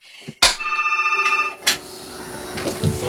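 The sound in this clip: A telephone rings as a caller joins the line: one short warbling electronic ring burst, followed by a fainter second hit and steady line hiss.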